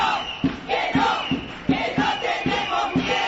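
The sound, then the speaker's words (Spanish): A street crowd at a women's demonstration in the Canary Islands against violence toward women chants in a steady, rhythmic pulse, many voices swelling in repeated loud bursts throughout. “Este que vas a escuchar es el sonido de la calle ayer por la tarde en Canarias.”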